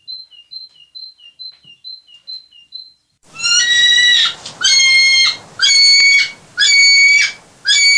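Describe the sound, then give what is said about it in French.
A great tit sings a quick run of repeated bright two-note whistled phrases, thin and high. After a few seconds it gives way to five loud, buzzy harmonic bursts of another kind. “la mésange charbonnière”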